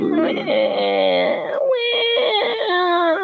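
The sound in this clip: A voice imitates a crying baby with a wavering, whimpering wail that rises and falls in pitch. It runs for about three seconds without a break.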